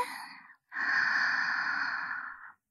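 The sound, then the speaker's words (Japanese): Deep breath in during a guided breathing exercise: a brief breath sound, then a slow, steady inhalation of about two seconds, moderately loud and alone. “息を吸って、”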